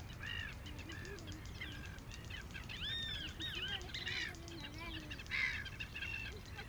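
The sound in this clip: Gulls calling by a coastal lagoon: a few faint, scattered squawks and cries over a constant rushing bed of wind noise.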